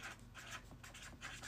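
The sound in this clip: Pen scratching across paper as something is written down by hand: faint, quick, scratchy strokes in short uneven bursts, with no voices.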